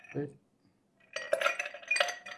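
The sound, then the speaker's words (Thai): Ice is poured into a chilled glass for a gin cocktail, making a quick cluster of bright, glassy clinks and rattles over about a second, after a brief voice and a short silence. “เทน้ำแข็งไปก่อนนะครับ”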